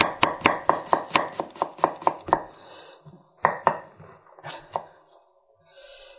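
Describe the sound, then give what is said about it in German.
A knife chops food on a cutting board in a home kitchen. Many quick, crisp, evenly spaced chops come first, then after a short pause a few slower, scattered cuts. “Ich schneide die jetzt erstmal so in Scheiben, dann in Streifen und dann hacke ich die.”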